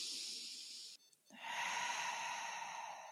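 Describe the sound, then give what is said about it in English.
Long, airy breaths out through the mouth during a breathwork exercise, a soft hissing exhale that stops briefly and then resumes as another sustained, slightly louder exhale. “I exhale long and out through my mouth a few times, I'm already feeling it.”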